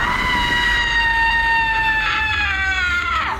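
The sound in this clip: A woman screams in a nursery, one long, sustained, high-pitched cry that holds steady and sinks slightly in pitch, loud and alone throughout.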